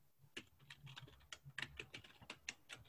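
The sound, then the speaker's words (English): Fingers tap on a computer keyboard, producing many quick, irregular key clicks in uneven bursts. The typing is faint and sharp, with no voices over it. “I hope I typed this right.”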